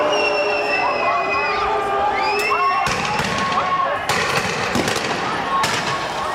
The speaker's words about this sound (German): In Évian-les-Bains ist damals der G8-Gipfel und in Genf wüten nach einer Demonstration Chaotinnen und Chaoten und Vandalen. Die Polizei schreitet mit Wasserwerfern, Gummigeschossen und Tränengas ein.